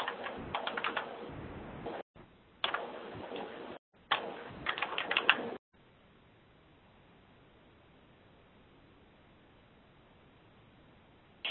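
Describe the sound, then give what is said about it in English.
Rapid typing on a computer keyboard while entering a user ID and password: three short bursts of dense, clicking keystrokes, then near silence. “So let's begin by putting in our user ID and our password.”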